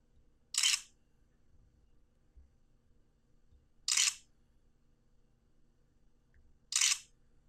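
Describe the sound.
Three sharp single-lens reflex camera shutter clicks during a portrait photo shoot, spaced a few seconds apart over a faint low hum.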